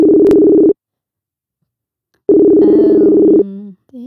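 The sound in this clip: A telephone busy signal heard when placing a call: two loud, steady buzzing tone bursts separated by a silent gap, the second followed by a brief shifting tone as the line changes.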